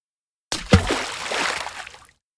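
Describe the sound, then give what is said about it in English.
A dog falls into a river with one sharp splash, then water sloshes and churns steadily for over a second before cutting off. “Toto went to drink some water, but suddenly he fell into the river.”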